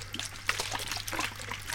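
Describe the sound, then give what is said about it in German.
Water trickles in a thin rivulet along a riverbed, where water from a garden hose runs: a continuous soft, bubbling dribble with small splashy bursts, steady throughout. “das ist ein Rinnsal, ne? Ist ja noch nicht so aufregend.”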